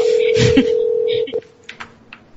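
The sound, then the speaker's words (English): A telephone sounds with a sustained electronic ring tone that cuts off after about a second, followed by a few short, quieter beeps. “Answer your phone.”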